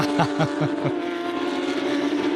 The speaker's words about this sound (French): capacité de cette voiture, la Porsche Cup, qui peut aller aussi vite dans le bac à gravier que sur la piste.